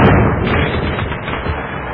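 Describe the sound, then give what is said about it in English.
A fireworks sound effect, a dense and loud stream of crackling pops that runs steadily for about two seconds with a muffled, dull top end. “Hey, it's a premiere of a new show. Where are the fireworks?”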